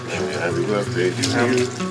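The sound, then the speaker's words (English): Water runs from a tap as hands are washed with soap, a steady splashing hiss that carries on beneath a person talking throughout. “The single most useful thing that we can all do is to wash our hands. Soap, come on.”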